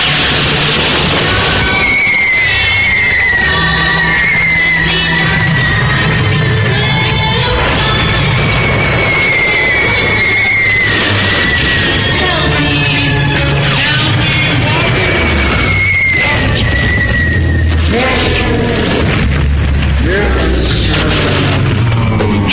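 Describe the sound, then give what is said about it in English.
Bombs released from an aircraft whistle downward in pitch as they fall, then explode in repeated deep booms. Several falling whistles and blasts overlap above a constant low roar. “Stand by to release your bombs. Please, don't just stand there. Okay. Release your bombs.”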